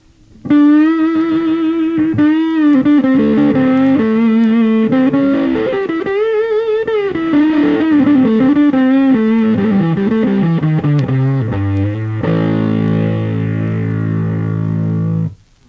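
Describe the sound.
An electric guitar plays the 'woman tone', using the bass pickup with the tone control turned to zero. Smooth, dark, sustained lead notes with vibrato wander downward through a melodic phrase, then settle on a loud held chord at the end.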